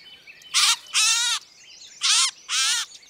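A gray catbird being untangled from a net gives four harsh, raspy calls in two pairs, each burst a loud, buzzy squawk lasting a fraction of a second, with quiet gaps between.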